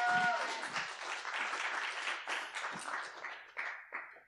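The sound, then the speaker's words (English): Applause from a church audience welcoming a guest speaker to the front, a dense, steady patter of many hands that holds fairly even, with brief swells, and thins near the end. “So if you would give her a welcome and a hand as she comes to bring the word today.”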